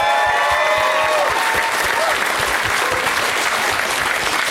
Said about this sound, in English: Let's hear it for the wait staff here at the...